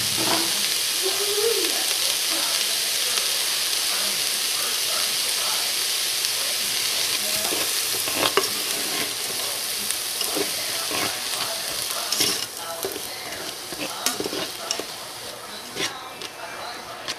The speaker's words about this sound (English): And I'm gonna stir that around.